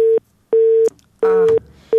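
A telephone busy tone after a listener's call to a radio program drops: a low, loud beep pulses on and off at an even rhythm with short silences between.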